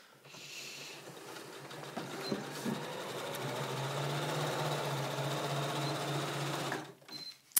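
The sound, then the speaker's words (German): Sewing machine running a zigzag stitch along a lining edge to stop it fraying: a steady, dense motor whir with rapid needle clatter that holds for several seconds, then stops abruptly, with a faint click at the end. “Und hier kann man dann auch direkt einfach mit einem Zickzackstich beim Futter machen, damit das dann nicht ausfranst.”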